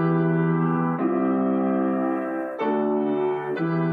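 Piano chords in plain root position, without inversions, ring out alone: four sustained, full chords, each held before the next one is struck, at an even, moderate loudness.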